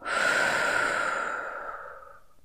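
One slow exhale during a guided breathing exercise, a long, airy, breathy rush that starts fairly loud and gradually fades over about two seconds.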